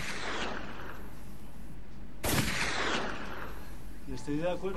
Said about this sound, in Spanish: Damos un par de tiros al aire.